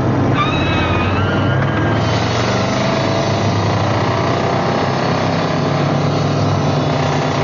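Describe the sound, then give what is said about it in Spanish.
Steady engine and road noise from a car changing lanes and speeding away, a continuous broad rumble that holds level throughout, with a faint high whine in the first seconds. “Él se cambia de carril y se marcha a toda velocidad.”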